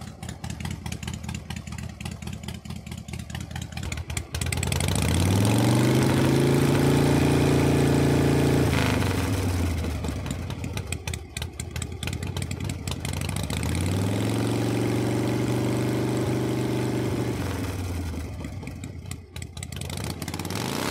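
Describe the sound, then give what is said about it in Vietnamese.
Modified Yamaha Exciter motorcycles rev their engines at a night street race, with two long, loud throttle swells rising over a rough, rattling idle. “Tiếng nẹt bô, tiếng vê ga của những chiếc xe Exciter đã được độ đủ màu sắc,”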